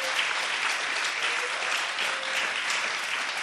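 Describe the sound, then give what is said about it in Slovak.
A church audience claps for Jesus, a steady, dense wash of applause from many hands that holds at an even level throughout. “Alléluia, acclamons Jésus pour cela. Zatlieskajte Pánovi. Acclamons. Alléluia, zatlieskajte Ježišovi.”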